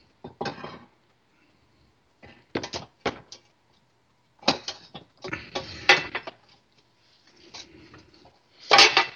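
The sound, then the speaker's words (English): Hot baking stone with biscuits being taken out of an oven: a scattered series of short, fairly faint clunks, scrapes and knocks of stone and metal, separated by brief pauses, with no talk. “Right, our biscuits are done. I'm taking the whole baking stone out.”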